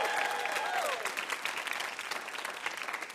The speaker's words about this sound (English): please give it up for our one-man house band, Mr. Jonathan Coulton